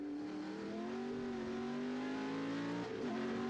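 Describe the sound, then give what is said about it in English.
A race car engine in a video game roars as it laps a track at night, holding a steady high drone that climbs slowly, then dips briefly near the end before rising again, like a gear change. “I'm going to narrate one of the laps at night.”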